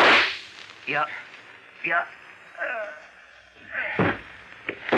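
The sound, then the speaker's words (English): Gunshots ring out in a radio drama, sharp whip-like cracks that punctuate the scene amid voices and short bursts of sound. “I've got a gun. I'm going to shoot.”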